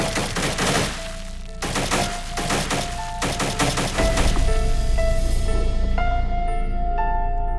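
Gunfire erupts in a chaotic fusillade as soldiers hidden among the trees and bushes of a courtyard shoot at a monster, with dense, rapid bursts of sharp cracks that grow heavier and more continuous toward the end.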